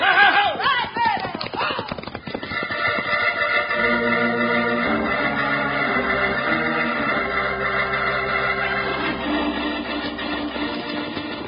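Horses gallop off along a trail in a western setting, with rhythmic clip-clop hoofbeats and a whinny near the start, followed by a steady, sustained backdrop of sound.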